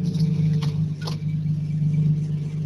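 A car engine droning steadily under throttle during a drifting and doughnut driving event, a loud low rumble that holds an even pitch throughout, with no voices.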